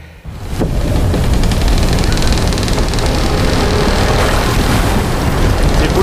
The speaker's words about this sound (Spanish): ¡A cubierta! ¡El barco se hunde!